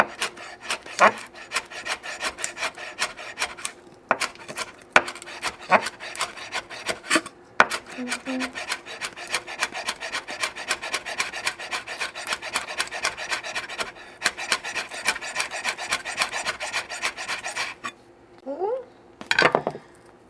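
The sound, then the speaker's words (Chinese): A knife finely chops spring onions with many quick, steady strikes in a dense rhythm, broken by a few brief pauses and no talking. “然后我们顺便可以把葱切一下，然后葱呢也是切碎，”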